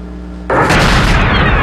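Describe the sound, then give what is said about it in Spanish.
A sudden, loud explosion from an aerial bombing of the airport in Yemen's capital. A low steady hum breaks into a broad blast, followed by a sustained, heavy roar. “El aeropuerto de la capital yemení fue sacudido esta tarde por un bombardeo con aviones de una coalición de estados árabes liderada por Arabia Saudita”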